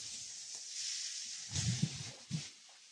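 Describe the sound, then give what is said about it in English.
Tomatoes and scallions sizzling in a pan with peppers, giving a steady soft frying hiss, with a few dull thumps and stirring noises in the second half. “And then I'm going to add some of the scallions. I'll save some for the top. Now I'm going in with my tomatoes.”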